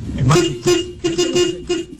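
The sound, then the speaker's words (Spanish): Car horns honk in a traffic jam, a run of several short and longer toots in an uneven rhythm, with excited voices talking loudly over them. “¡Otra vez! ¡Otro! ¡Ese es otro! ¡Otro! ¡Tengo otro pito! Ey, dejen la pitadera”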